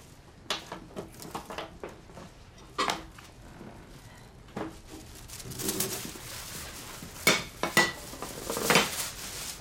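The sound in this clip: Plates being fetched and handled: a series of sharp clinks and knocks of dishes and cutlery, scattered and irregular, louder and busier toward the end, with no talk.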